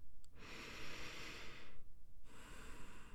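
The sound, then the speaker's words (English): A deep, slow breath, heard as a long, soft airy draw, then a short pause and another long, quiet breath. “Now, take a breath for me. Deep. Slower.”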